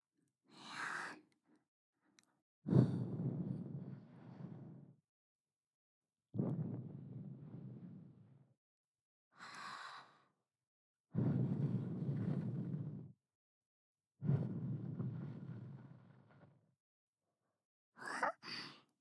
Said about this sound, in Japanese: お耳に息を吹きかけるの？やってみる。